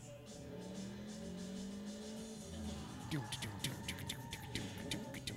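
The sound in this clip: A racing car engine in a street-racing video game drones steadily, its whine climbing in pitch, before choppy bursts of clattering noise break in over the last couple of seconds.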